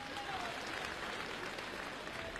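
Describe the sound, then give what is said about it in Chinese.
Dense, steady applause from a live audience at a youth crosstalk comedy show in a Peking University auditorium, continuing evenly throughout without a break. “感谢大家的掌声， 谢谢您的热情。”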